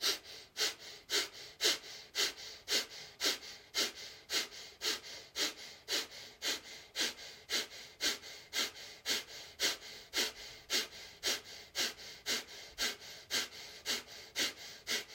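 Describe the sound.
Rhythmic breathing during a guided breathwork exercise: many quick, forceful breaths in a steady, even pulse, soft and alone with no talking.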